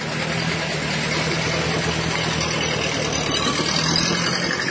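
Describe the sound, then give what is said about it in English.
A car engine idles steadily, giving a constant low hum and an even, broad rumble with no revving or pauses throughout. “In a dream, he starts the car. Then sits in the driver's seat and drives away.”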